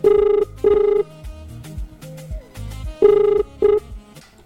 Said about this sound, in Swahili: Haya, kwenye line ya simu kuna mtu hapa. Angalia simu yako.